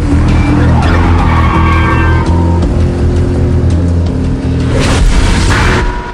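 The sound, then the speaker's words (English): A car engine roars loudly as the car accelerates hard under a flyover, with screeching, skidding tires over the dense, continuous engine noise. “accelerates under a flyover.”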